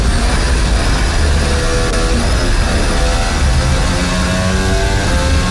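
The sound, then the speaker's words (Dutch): Onboard engine of Lewis Hamilton's Formula 1 car at Silverstone during the 2023 British Grand Prix, shifting up into sixth and seventh gear on Hangar Straight. The engine screams loud, high and continuous. “Zesde versnelling, zevende versnelling. Opkomen van Hangar Straight onder de brug door richting Stowe.”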